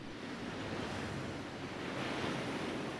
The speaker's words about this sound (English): The young agent walks out of the water and retrieves his board as it washes up on the beach.